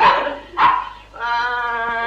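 Dogs barking loudly: two sharp, punchy barks, then a sustained, tonal whine or yelp that carries to the end.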